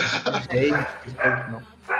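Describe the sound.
A dog barks and yips in short bursts that overlap people talking, with the barks fairly loud against the voices.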